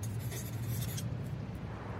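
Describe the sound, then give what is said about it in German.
A pen scratching across a slip of paper, a faint, dry scribbling that fills the first half and then stops, leaving only a low steady hum. “Hoffentlich holt sie auch einen Zettel und Stift. Nicht, dass ich es jetzt ganz versaut habe. Ich schreibe auch Hi.”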